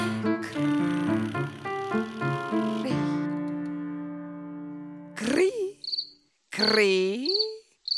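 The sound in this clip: Cricket chirping comes in as a few short, high chirps after a stretch of played musical notes and a held tone, mixed with warbling, voice-like sounds.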